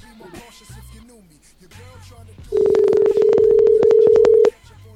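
A phone call placed over Skype: a steady electronic tone of about two seconds follows a stretch of quieter, irregular sounds, then stops abruptly.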